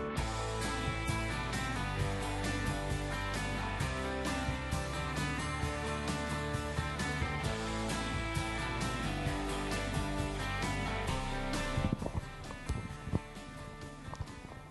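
A band song opens a show: dense, full music with a steady driving beat and sustained instruments plays continuously throughout.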